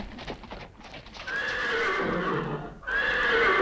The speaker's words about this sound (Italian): Ad una certa distanza seguivano nitrendo i cavalli